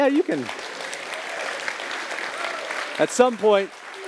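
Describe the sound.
A church audience applauds its new lead pastor with steady, moderate clapping. A voice is heard briefly before and after the applause.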